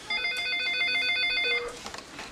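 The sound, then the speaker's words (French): Telephone ringing with an incoming call: a single sustained, bright electronic ring lasting about a second and a half, followed by a few faint clicks. “Je pensais qu'il y avait un autre appel maintenant.”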